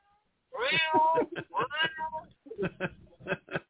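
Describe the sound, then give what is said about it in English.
A person's voice imitates a stray kitten meowing, giving a string of high, whiny meows. The first meow is long and drawn out, followed by several shorter, clipped ones in a loose rhythm. “I'm just the stray puppy, the stray kitten on your door. Meow, meow,”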